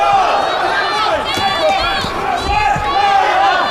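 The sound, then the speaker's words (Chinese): A fan club holding light-up signs cheers for a player at a live match, with a continuous crowd din under talking voices throughout. “我们现场也有朱帅的粉丝团啊，在为朱帅加油助威。”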